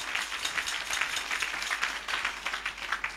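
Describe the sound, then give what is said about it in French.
A church audience applauds during a sermon, a faint but steady patter of many hands clapping with no talking. “On acclame tous ceux qui ont le cœur blanc.”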